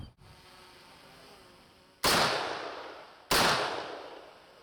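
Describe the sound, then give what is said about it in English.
Two loud assault-rifle shots strike armour material in a ballistic test of vehicle body and window protection. Each is a sharp crack with a long decaying roar, the two about a second apart, over a quiet steady background. “This test is simulating an attack using an assault rifle.”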